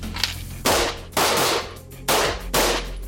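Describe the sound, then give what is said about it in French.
Pistol shots at a shooting range during firearms training. Four sharp, loud reports come in two closely spaced pairs, each shot with a short ringing tail over low background noise, with no talking. “Allez, si vous êtes prêts, vous sortez votre arme et vous tirez 2 cartouches.”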